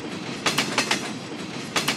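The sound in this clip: A train rolls along the rails with a rhythmic clickety-clack of wheels over the joints, paired clicks repeating over a steady rumble, with no voices.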